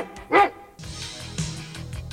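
A single sharp dog bark in a dog food commercial, short and loud near the start, followed by a steadier background sound.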